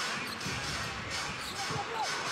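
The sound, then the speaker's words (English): Basketball dribbled on the court during an NBA game involving Toronto, a series of quick dull bounces set against a steady, noisy background. “Hield on the dribble, near side, left wing.”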